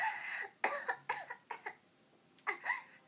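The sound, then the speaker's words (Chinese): Harsh, breathy coughing after choking on a sharp inhalation during pronunciation practice, a run of many rapid bursts in clusters with short pauses between them, fairly loud and with no talk. “没事，呛到了。”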